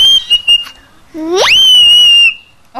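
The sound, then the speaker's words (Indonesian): A shrill whistle: a brief high tone at the start, then after a pause a sound that sweeps sharply upward in pitch and holds a long, steady piercing note before stopping abruptly. “Itu kayak suara apa itu? Suara apa tuh? Teriaknya kayak apa? Peluit.”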